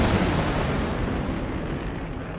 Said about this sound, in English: Pieces of the rocket break off in flames.